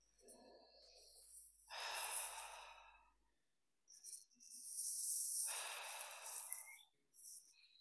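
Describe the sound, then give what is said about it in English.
Deep, full breathing during a breathwork exercise, heard as two long, airy rushes of air separated by short quiet gaps, each swelling and then easing off, soft and unhurried with a faint hiss. “Inviting in a fuller breath.”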